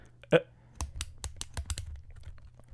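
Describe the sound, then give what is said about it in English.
A ballpoint pen clicked right next to the microphone gives one strong, sharp snap early on, followed by many quick, crisp clicks in an uneven rhythm. “Click your pen again. That's so satisfying. Why is that so satisfying? It's so loud next to the mic, too. Listen.”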